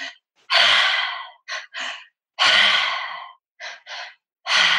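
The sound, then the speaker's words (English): Three-part mouth breathing: two quick, short inhales through the mouth, then one long, forceful exhale. The pattern repeats about three times in a steady rhythm, loud and breathy, with no talk. “So this breath pattern is called the triactive breath. So it's a three-part breath and we're only using our mouth. So you want to breathe in twice and exhale once. So it sounds like this”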